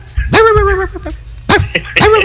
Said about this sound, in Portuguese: É o cachorro? Tem que ter um doido pra participar. Au, au, au. Cachorro argentino.